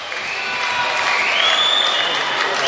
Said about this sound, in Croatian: Zvižduci domaće publike za gostujuće navijače koji su, kažem, sad ušli u dvoranu.